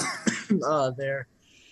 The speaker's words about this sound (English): Sorry, I got a little oat stuck in the back of my throat.